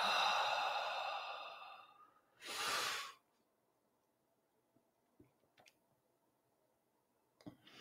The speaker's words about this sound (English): And feel what's coming up. And breathe it out.